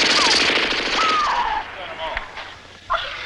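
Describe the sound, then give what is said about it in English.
Rattling machine gun fire during an attack on a tent, dense rapid shots at the start that thin into scattered bursts, with shouting voices mixed in. “He just blew them all away with a machine gun.”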